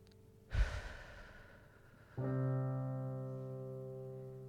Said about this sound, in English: if you guys are willing to just close your eyes and just take a deep breath with me